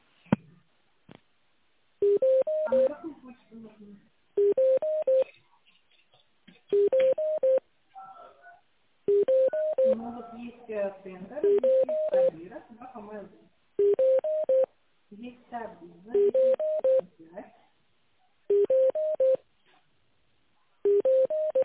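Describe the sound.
Electronic telephone tones play while a call is transferred to a finance department: short bursts of stepped beeping pitches recur in a regular pattern, many times over, with brief silences between them.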